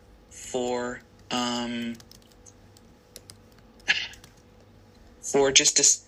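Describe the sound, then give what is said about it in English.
Computer keyboard typing as notes are hurriedly written down, with bursts of quick clicks between short stretches of talk. “Wait, I have to write these down just a minute.”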